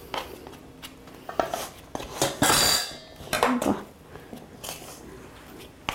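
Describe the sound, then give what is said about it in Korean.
Rice flour dough being mixed with a spatula, making a series of irregular scraping, knocking and clattering strokes that vary in loudness, with no voices. “반죽이 아주 잘 된 것 같은데요. 잘 한번 섞어볼까요? 아우, 손을 대기 싫어서 주걱으로만 하려고 했는데, 주걱 하나가 더 필요하겠네.”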